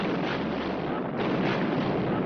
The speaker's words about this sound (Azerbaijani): First, the British ship fired two warning shots.